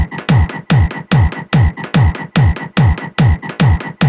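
Frog croaks set into a dance beat, repeating as a steady fast loop of loud, rasping pulses, each paired with a low bass hit that drops in pitch, with no talk.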